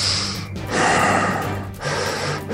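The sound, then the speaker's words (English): A voice imitates heavy breathing: a few loud, drawn-out breaths with short pauses between them, heard alone without any talk. “And you can hear heavy breathing, like,”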